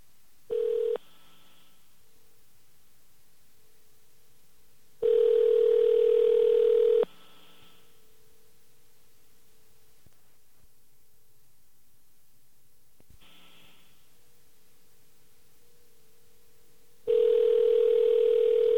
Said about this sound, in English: AT&T, please dial the number you are calling, or 0 for an operator, now.